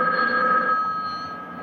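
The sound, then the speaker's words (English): A telephone bell rings in a steady, continuous metallic tone that softens slightly toward the end. “someone answer the phone.”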